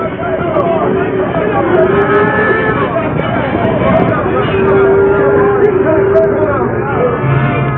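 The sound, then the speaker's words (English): A frightened cattle herd stampedes: loud, continuous rumbling din with repeated lowing moos rising above it throughout. “Sending Silver at the herd with the sheriff and Hilton following, the masked man aroused the frightened animals, dropped them blundering to their feet, heading them about and drove them in a terror-stricken mass”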